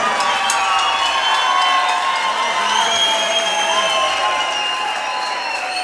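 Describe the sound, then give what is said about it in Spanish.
Applause and cheering from a live concert audience welcoming a guest on stage, a loud, continuous wash of clapping with shouted voices rising over it. “Bienvenido, lo recibimos con un aplauso, Oscar Belondi.”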